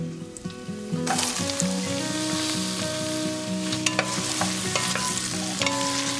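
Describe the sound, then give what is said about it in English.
Sizzling as carrots go into a pan of frying onions and garlic: the hiss jumps up sharply about a second in, then crackles steadily and loudly, with stirring scrapes mixed through. “The onions and the garlic are fragrant, and now I'm going to add the carrots.”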